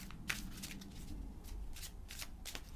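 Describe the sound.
Shuffling a deck of Wisdom of Avalon oracle cards: several short, faint riffling bursts at an uneven pace. No one talks.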